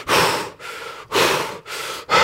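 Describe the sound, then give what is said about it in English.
Heavy panting imitated by a voice catching its breath, about five loud rasping breaths alternating in and out in a quick steady rhythm, with no talk. “just trying to catch my breath. Literally like this.”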